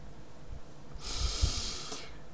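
A slow exhaling breath during a guided breathing exercise, a soft airy hiss lasting about a second that swells gently and fades, heard alone without talk.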